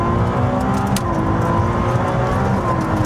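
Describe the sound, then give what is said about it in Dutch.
Engine of a Ferrari 296 Speciale sports car on a driving test, a loud, steady, dense drone that holds throughout with no talk. “test de Ferrari 296 Speciale.”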